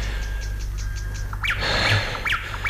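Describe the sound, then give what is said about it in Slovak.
Birds sing a run of quick, high chirps, then louder sweeping calls in the second half, over a steady low hum. “Spievajú vtáci.”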